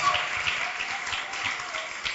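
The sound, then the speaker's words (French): Congregation applause in praise of the name of Jesus Christ during a French-language sermon: a continuous, even wash of clapping that holds a steady level through the whole clip. “Acclamons pour le nom du Seigneur Jésus-Christ.”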